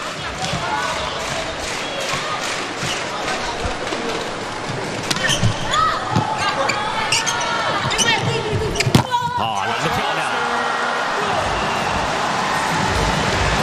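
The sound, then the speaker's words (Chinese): A volleyball is struck on a serve from the back row during a match, giving a few sharp ball impacts over steady crowd noise, with commentators talking throughout. “刚刚换上场的郭中南来到后排发球，”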